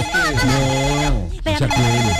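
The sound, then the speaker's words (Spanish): A loud, melodic telephone ringtone signals an incoming call. Tuneful electronic tones bend up and down in two phrases separated by a brief break. “Me está entrando una llamada.”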